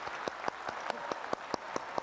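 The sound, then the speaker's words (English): Audience clapping in a steady, evenly spaced rhythm, roughly nine sharp claps in quick succession, fairly faint and with no talk over them. “This is the clapping that should have been in the football stand. This is the clapping that should have been at your graduation.”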